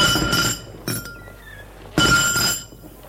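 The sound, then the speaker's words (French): A glass window pane is smashed by kicks from heavy shoes. A few sharp crashing impacts, separated by pauses, carry bright ringing glass tones, and the last impact is loud and trails off. “avec son pied et ses grosses chaussures, il donne deux coups pour casser la vitre.”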